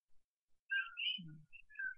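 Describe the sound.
A frog in Hawaii calls with a few short, whistle-like chirps at a fairly high pitch, with a low brief croak between them.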